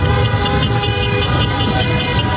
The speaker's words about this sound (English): a chorus of horns honking as thousands also flashed their cars' lights in tribute to George Floyd